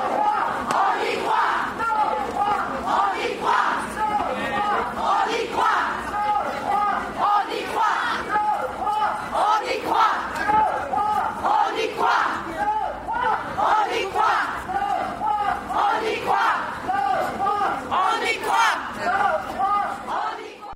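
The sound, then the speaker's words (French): A crowd chants in steady rhythmic bursts at the launch of the Vie Féminine women's rights caravan in Liège on 8 March. The voices are loud and continuous, with a regular pulse of repeated slogans. “Ce que vous venez d'entendre, c'est du son qu'on a pris lors du lancement de la Caravelle des droits des femmes de Vie féminine et le 8 mars passé à Liège.”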